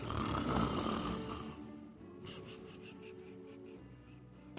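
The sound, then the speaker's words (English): A man in the front row of a live comedy show audience snores, giving a rough, breathy rumble that fades, followed by fainter rhythmic hissing breaths. “Is there a man snoring in the first row?”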